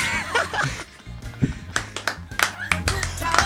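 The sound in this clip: An audience at a live show claps in a brisk, uneven patter, mixed with chuckles and laughter and a few voices over the top.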